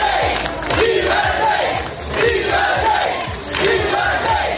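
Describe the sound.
A crowd at the Sanxenxo marina in Pontevedra cheers and chants to welcome the king emeritus as he arrives. The loud, massed voices rise and fall in rhythmic chanted waves, with a few clear swells of shouting.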